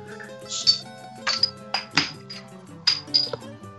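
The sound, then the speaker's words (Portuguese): A bottle of APA 82 beer being opened, marked by a series of bright glass clinks and metallic pings from the bottle and cap. The clinks are irregularly spaced and sound alone, without voices. “Todo mundo aí com a sua APA 82. Sim, é jovenzão! então bora, bora abrir essa desgraça aí.”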